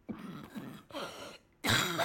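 Throat clearing in three raspy bursts separated by short pauses. The first two are fairly soft and the final one is much louder and harsher.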